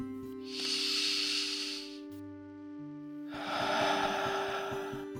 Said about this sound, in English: Let's do that. Let's stop and take a deep breath.